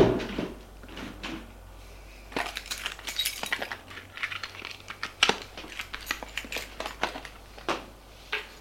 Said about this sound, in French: Elle a refermé le coffre en soupirant et le remet, le coffre, dans le coffre-fort qui est derrière le tableau.